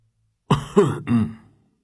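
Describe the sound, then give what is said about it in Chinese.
A male tutor gives a short voiced cough, three quick throat-clearing bursts within about a second, loud against otherwise silent surroundings. “展昭正纠结，就听那沈夫子咳嗽了一声。”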